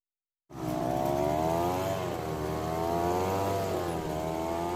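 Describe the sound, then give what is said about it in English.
Gas-powered leaf blower engine droning loudly and steadily after a brief silence, its buzzy tone wavering slightly in pitch throughout, with no talking. “As soon as those autumn trees start dropping their leaves, the blowers come out in full force. And that noise, particularly from gas-powered machines, is almost deafening.”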